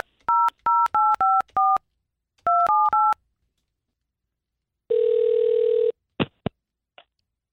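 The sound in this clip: A phone call is placed with telephone keypad dialing: a quick run of touch-tone beeps, a short pause, then a few more. A single longer ringing tone follows, then a couple of faint clicks.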